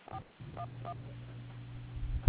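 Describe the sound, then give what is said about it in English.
Telephone keypad tones dial an extension on an automated phone line: three short, dual-pitched beeps over a steady low line hum. “Please dial the extension you were just given.”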